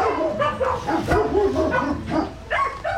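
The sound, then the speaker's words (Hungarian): A large dog barks several times in quick succession, loud, deep-chested woofs with whiny yips between them, heard during an animal rescue call. “Ide jöttünk egy nagyobb termetű kutyuskához.”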